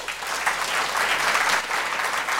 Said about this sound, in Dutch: Ik vraag hem met een luid applaus begeleid naar voren te komen.